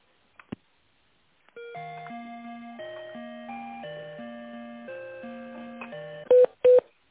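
A telephone is dialed for a business call: a few faint clicks, then a steady run of stepped electronic tones that shift in pitch, ending with two loud, sharp beeps.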